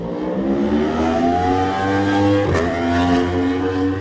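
A Yamaha racing motorcycle engine at a road race holds a steady, buzzing mid-pitched drone with a slightly wavering tone and a brief louder surge partway through.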